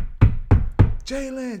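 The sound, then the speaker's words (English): Three loud, heavy knocks on a door, evenly spaced and booming, followed by a short voiced call. “it's some girls knocking the door mad loud looking for Jalen”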